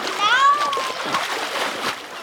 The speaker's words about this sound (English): And many campers' favorite activity, swimming.